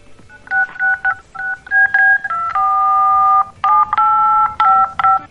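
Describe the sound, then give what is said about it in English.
A DTMF tone generator sounds telephone dialing tones: a quick sequence of clear dual-pitch beeps of varying lengths, including one long held tone in the middle, loud with no talking. “DTMF tone generator. It's the one I got. And I still don't know if the damn thing works. It works enough that you can hear it, though, right?”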